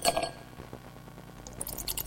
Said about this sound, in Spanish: Bueno, vamos con el brindis, loco.